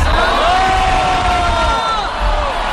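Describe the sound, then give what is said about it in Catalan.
A concert crowd shouts and cheers in a loud, dense roar of many voices, with sustained calls and whoops that ease slightly near the end. “fins i tot un moment en què va haver de demanar-li al tècnic de so que pujés el volum del piano perquè el públic li cridava que no el sentia prou.”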